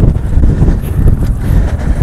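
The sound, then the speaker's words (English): Outdoor wind buffeting a microphone, a loud, steady low roar that rumbles and gusts unevenly for the whole moment with no other clear sound. “I do apologise about the wind”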